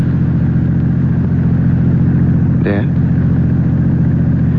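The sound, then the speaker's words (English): A car driven near midnight gives a constant low engine drone throughout, with a brief voice cutting in midway. “Bothering you? All you're doing is driving.”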